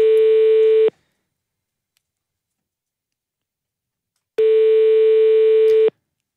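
Telephone ringback tone while calling a company back: two steady, flat electronic tones, each lasting about a second, separated by a long silence.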